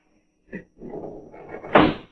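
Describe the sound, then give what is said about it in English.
A window overlooking a harbor is opened: a brief knock, then a longer rough sliding scrape that ends in a louder thud, fairly quiet and with no talk over it. “Open the window, will you? It's hot in here. It ain't a bit hot. You've been drinking too much. Open it anyway.”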